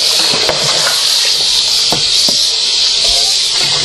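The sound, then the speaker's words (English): Water rinsing out a bowl, a steady bright hissing stream with a few faint clinks and knocks against the bowl. “and I'm going to rinse out this bowl”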